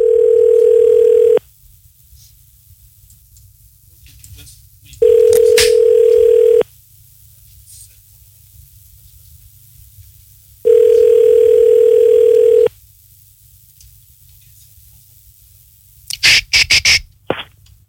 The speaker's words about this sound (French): On compose le numéro de téléphone de Laurence.